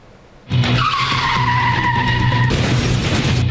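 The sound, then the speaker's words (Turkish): Tires screech as a car skids out of control on a road in Maltepe, Istanbul, before hitting a median. The loud squeal starts suddenly and holds steady for about two seconds, then turns into a harsher, rougher roar. “Kontrolden çıkan bir otomobil önce refüje çarpıyor. Yoldan geçen bir aracın da üzerinden geçiyor savrulduktan sonra.”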